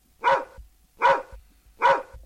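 Dog barking: three evenly spaced, mid-pitched barks of similar loudness, alone with no talk.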